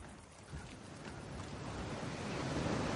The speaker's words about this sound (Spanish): Frente al mar, en la playa